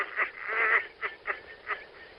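Goose honking, a little mother goose calling after a man as he drives away: a short run of nasal, harmonic honks in an irregular rhythm, one drawn out longer than the rest, fairly soft and with no talk.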